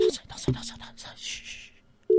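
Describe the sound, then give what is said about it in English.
Ringback tone of an outgoing voice call: steady electronic beeps broken by gaps, with people chatting in between the tones. “Ek dink dit is 'n ringtone.”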